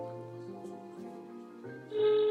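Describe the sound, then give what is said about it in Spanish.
Ringing tones on an outgoing telephone call, quiet and electronic. The tones step between a few pitches, then end in a louder, higher sustained tone. “está marcando”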